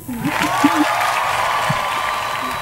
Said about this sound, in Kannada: ನಾನೇ ಚಪ್ಪಾಳೆ ತಟ್ಬಿಡ್ತೀನಿ ನೋಡು